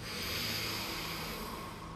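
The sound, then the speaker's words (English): A deep inhale during a guided breathing exercise: a soft, steady breathy hiss drawn in evenly for about two seconds, with no voices. “Every inhale, bringing in that new belief, starting to reprogram your body, your mind. Deep inhale.”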